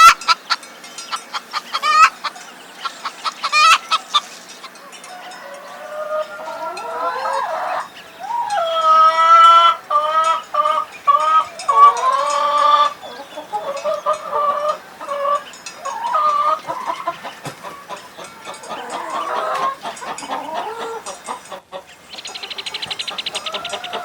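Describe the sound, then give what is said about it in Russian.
Chicken clucking in a long run of many short, throaty clucks, loud and uneven, with busier bursts in the middle and steady background noise, no voices. “Курица. Курица.”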